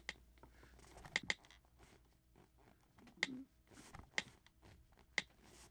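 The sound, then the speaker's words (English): Faint, sparse taps and clicks from someone slowly typing a sentence on a communication device, with a few isolated keystrokes separated by long quiet pauses. “Patience is essential. That's how long it takes me to type a sentence.”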